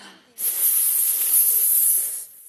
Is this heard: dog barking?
no

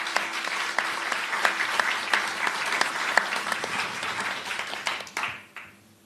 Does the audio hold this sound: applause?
yes

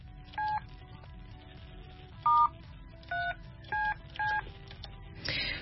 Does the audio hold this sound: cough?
no

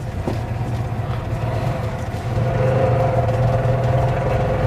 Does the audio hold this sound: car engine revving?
yes

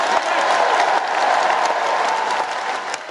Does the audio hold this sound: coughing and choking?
no

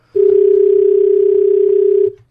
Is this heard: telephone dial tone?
yes

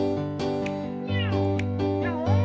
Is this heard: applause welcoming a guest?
no

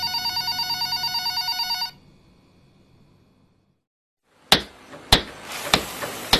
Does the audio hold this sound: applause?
no

